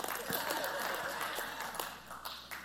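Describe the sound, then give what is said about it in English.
Church audience clapping, a steady wash of faint applause from many hands that continues evenly before thinning slightly toward the end. “All the people without kids are clapping.”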